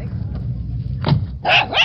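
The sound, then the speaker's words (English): A dog barks in greeting as someone returns home, giving a few loud, sharp barks over a low steady background hum. “the returning hero was greeted by a dog he hadn't seen since he was a pup”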